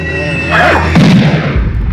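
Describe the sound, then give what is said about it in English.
A powerful gunshot on a film soundtrack, fired at a figure in a welding mask, with kickback strong enough to throw the shooter down cellar steps. One loud, deep boom cuts through sustained tonal music and is followed by a lower rumble. “A figure in a welding mask appears. She shoots him and is sent flying back down the cellar steps from the kickback.”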